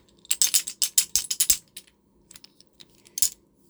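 A small hand percussion instrument is struck in a quick run of many sharp, bright taps, then a few scattered lighter hits and one final louder cluster, with no talking.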